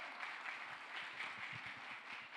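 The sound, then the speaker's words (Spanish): An audience applauding in church, a faint, steady patter of many hands clapping together that holds an even level throughout without voices. “Un aplauso al Señor, ¿verdad?”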